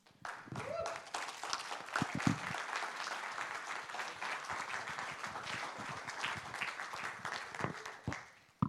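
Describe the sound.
Audience applause welcoming a speaker onto the stage: dense, steady clapping that holds at an even level for about eight seconds, then thins and fades near the end.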